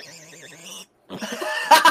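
A pot-bellied pig grunts: a drawn-out, tonal moaning grunt, a short silence, then rougher, noisier snorting grunts that grow louder toward the end.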